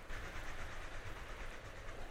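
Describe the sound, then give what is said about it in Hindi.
A train rumbles across a bridge with a steady, dense low roar and rattle that continues unbroken and fairly quiet throughout. “फिलहाल दोनों train के निकलने का इंतजार कर रहे थे कुछ मिनटों के बाद आखिरी डिब्बा पुल पर से निकला”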